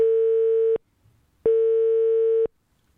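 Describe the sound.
Ringback tone of an outgoing telephone call: two steady, mid-pitched electronic tones, each about a second long, separated by a brief silence.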